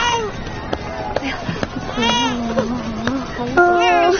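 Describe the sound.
An infant cries in a dramatised scene during Red Army recruitment, with a few wavering, tonal wails rising out of a busy background of other sounds.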